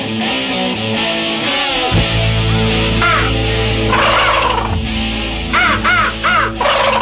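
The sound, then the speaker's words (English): A crow call, a handheld game call imitating cawing crows, sounding a series of loud, harsh, raspy caws in bursts that come quicker toward the end, over a low steady hum. “That's a crow call right there.”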